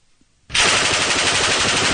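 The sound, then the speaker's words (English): An automatic weapon fires about 25 rounds in roughly a second: after a brief near-silence, a loud, dense, continuous burst of rapid cracks erupts and runs without a break to the end, with no voices. “you can just fire those 25 bullets in maybe a second, maybe 1 second. Yeah. It's unbelievably fun. And so we started doing that, and we actually have a little bit of the sound from shooting that weapon.”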